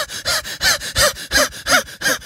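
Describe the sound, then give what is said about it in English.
Heavy breathing out, a rapid run of seven forceful, breathy exhalations in an even rhythm, each a loud rushing burst separated by brief pauses, with no talk. “Because I just breathed out a lot more then than I normally would have in 10 seconds.”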